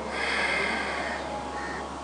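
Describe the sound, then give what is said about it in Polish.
A person exhales deeply through the nose during a relaxation breathing exercise. The breath is a steady, soft, airy rush lasting about two seconds, heard alone. “Zatrzymamy na chwilę powietrze w płucach i wydychając powietrze nosem,”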